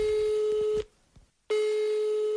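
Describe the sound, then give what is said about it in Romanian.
A telephone ringback tone sounds as a call is placed to order by phone: a steady mid-pitched tone breaks off for a moment, then resumes just as loud. “așa că o să dau și eu un telefon.”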